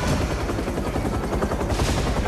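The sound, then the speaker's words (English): Helicopter at a helipad: a loud, dense, continuous roar of rotor and engine that stays steady without pause. “He's gonna steal that helicopter.”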